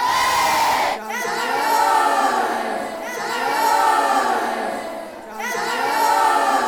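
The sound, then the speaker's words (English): A class of schoolchildren celebrating their winning quiz team cheers hip hip hooray in unison: a loud crowd of young voices rising in a few repeated chanted bursts. “How about one big hip hip hooray for your winning team and teacher?”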